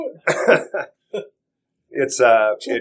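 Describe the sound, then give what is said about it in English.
Coughing and throat clearing from a person who choked on the last of a drink during a cigar tasting: several short, harsh bursts, a pause, then a longer, rougher, voiced stretch. “Excuse me. Excuse me. I'm choked up here. The last bit of drink.”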